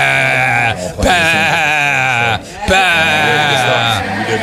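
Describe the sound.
A human voice imitates a goat's bleat with a few loud, sustained, quavering cries broken by short pauses.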